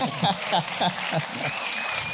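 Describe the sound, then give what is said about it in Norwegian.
Audience applause at a lively gathering. Voices ring out over the clapping in the first half, then the clapping continues as a steady patter. “Nei, applaus!”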